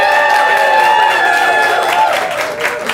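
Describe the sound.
Audience applause and cheering for a named contestant at a live event: dense, steady clapping with voices cheering throughout, holding loud across the whole stretch.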